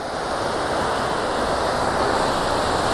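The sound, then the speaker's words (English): A waterfall in a video game: steady, unbroken rushing water, a broad, even roar that holds its level throughout with no other sounds. “I'm going to strange finder that waterfall, definitely.”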